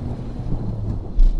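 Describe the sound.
Heavy rain pours outside in a steady, dense hiss with a low rumbling undertone that swells briefly near the end; no voices are heard.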